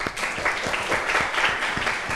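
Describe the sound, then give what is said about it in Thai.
Applause from a group at a class discussion of a picture, steady dense clapping held at even loudness throughout. “โอเคปรบมือให้ม่อนหน่อยครับ”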